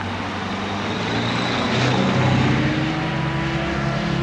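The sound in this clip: A large black limousine drives away from a petrol station, its engine a steady, loud, low rumbling drone that swells slightly midway and stays even to the end.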